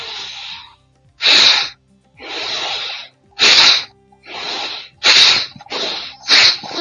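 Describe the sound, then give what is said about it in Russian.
Forceful rhythmic breathing from a pranayama breathing exercise, alternating longer, softer breaths with short, loud, sharp bursts through several cycles, with no talking. “То есть мы просто делаем вдох.”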